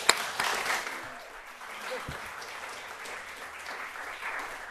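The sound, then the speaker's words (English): Studio audience applauding to welcome a discussion panel, a fairly soft, steady patter of clapping that opens with a sharp burst and then settles into an even wash. “please join me in welcoming the entire panel to the studio.”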